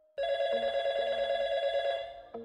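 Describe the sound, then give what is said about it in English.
A telephone rings with one continuous buzzy ring, bright with overtones and lasting about two seconds, with nothing else heard. “The phone kept ringing.”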